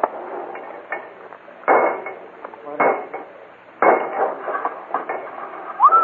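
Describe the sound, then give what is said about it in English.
Boxes are being cracked open during a heist, giving many sharp metallic bangs, clanks and rattles in an irregular rhythm. The sound is thin and tinny, with quieter scraping between the louder hits. “Oh, come on. We ain't got time to play with it. Crack the next box.”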